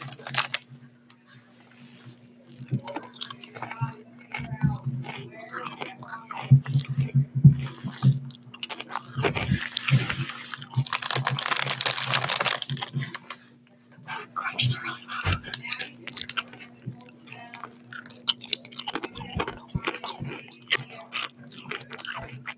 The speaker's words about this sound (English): Before we leave today, we're going to do some chip eating ASMR. I'm going to go ahead and start.